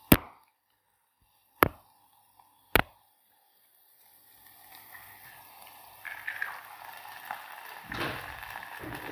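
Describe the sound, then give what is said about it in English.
Eggs cracked against a microphone and dropped into a pot: three sharp, loud knocks spaced over about three seconds, then a quiet pause and softer wet rustling and splashing. “What I'm going to do is just crack them straight into the pot. And like so. I'm going to crack this on the mic.”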